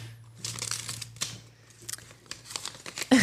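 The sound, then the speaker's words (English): Wrapping paper crinkles and tears as a birthday card and gift are opened, in a few irregular rustling bursts separated by quiet gaps, ending with a louder crackle. “And I spoke to the girls and they've all agreed that they would like you to open it on the podcast, actually. So there's your card. And we've got another little gift.”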